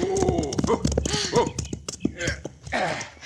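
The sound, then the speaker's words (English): A ridden horse's hooves clip-clop in a steady, brisk rhythm beneath a man and a woman talking. “Hey, that horse of yours travels as if he had wings, Miss Serrano. Yes, Senor Turk. That is why I choose to ride him rather than go by carriage.”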